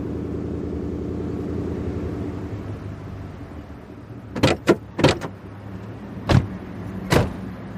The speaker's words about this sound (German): Ich fahre mal auf den Parkplatz hier.